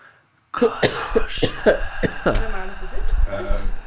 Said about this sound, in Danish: Boom, boom, det hostes.